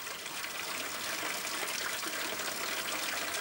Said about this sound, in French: Voici la fameuse fontaine chaude. Elle fournit 2,4 millions de litres d'eau thermale par jour.